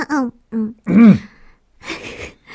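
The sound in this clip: Someone clears their throat: a few short voiced hums and a rising-falling vocal push, then a rough, raspy burst and a smaller one after a pause.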